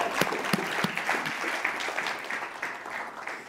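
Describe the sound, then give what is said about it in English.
Applause from a church audience at an Easter celebration, a dense, steady wash of clapping with a few sharper individual claps standing out, holding at an even loudness throughout. “Let's give him a big hand here this morning.”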